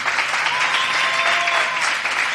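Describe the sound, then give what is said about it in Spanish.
Audience applause for the child president of a Valencian falla, dense steady clapping that holds at an even level for the whole stretch without a break. “Por favor, aplauso también para Jorge”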